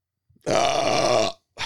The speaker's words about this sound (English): a lot of burps are in me